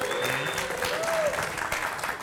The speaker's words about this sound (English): We really do have a live audience here. Go ahead and make some noise, audience, so they know you're here.